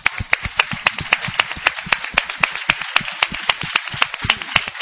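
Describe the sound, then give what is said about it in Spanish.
An audience claps at a tenth-anniversary show, a steady fast rhythm of sharp, evenly spaced claps that keeps going throughout with no voices. “Así que, por favor, 10º aniversario, un aplauso para todos ustedes.”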